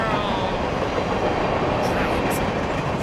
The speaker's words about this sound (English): So you want to get on the train? Let's go to the train to Giant World. Toot toot.